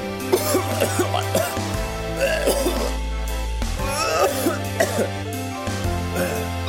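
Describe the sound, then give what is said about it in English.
A voice imitates a violent, strangled cough over steady musical backing, with a few harsh rasping bursts. “he was really coughing. It sounded like a giant ball of air was strangling his uvula. He went”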